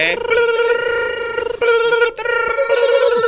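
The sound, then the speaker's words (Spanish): Telephone ringing sound effect in a radio studio: a steady, bright electronic ring that holds almost continuously, broken by two brief gaps, moderately loud. “ahí están sonando las líneas. Ahí están sonando los teléfonos como locos.”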